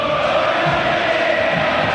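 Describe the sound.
Football fans of River Plate fill a stadium with a steady crowd roar, a loud, unbroken wash of many voices with no distinct words, holding level throughout.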